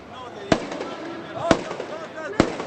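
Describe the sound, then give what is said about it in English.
Automatic weapons fired into the air at a Hamas funeral: three sharp gunshot cracks about a second apart, loud and abrupt over continuous crowd noise and voices. “The funeral was a show of strength for Hamas, and dozens of young militants fired their automatic weapons into the air during the ceremony.”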